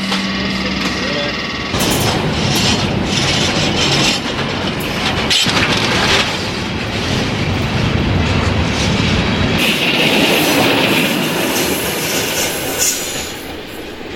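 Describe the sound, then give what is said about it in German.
A train rolls out of a railway marshalling yard with a loud, steady rumble of rolling wheels, clicking over the rails, with occasional high wheel squeal. “Der Zug rollt los.”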